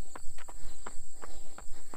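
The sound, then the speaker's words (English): Quick footsteps of someone climbing a hill, with regular thuds at a brisk, even pace and nothing else standing out. “climbing the hill again. So, yet another hill.”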